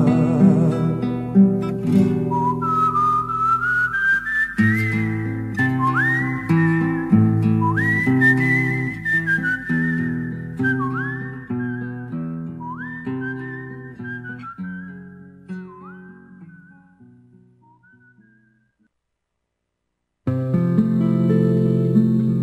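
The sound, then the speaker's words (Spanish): Soft whistling carries a melody of gliding, sliding notes over steady lower tones, then fades to silence near the end before sound briefly returns. “Y así se fue, chiflando bajito, ¿no? Chiflando bajito.”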